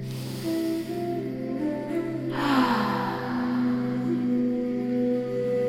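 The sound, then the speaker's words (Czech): Deep, breathy inhaling and exhaling during a guided movement session, heard over soft, sustained musical tones without talk. “Můžeš se teď párkrát zhluboka nadechnout.”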